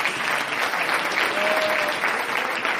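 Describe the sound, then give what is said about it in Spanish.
Applause from a church audience: steady, dense clapping that holds an even loudness throughout, with no pauses or separate claps standing out. “Tanto alaban al Señor. Dele fuerte ese aplauso, si es para”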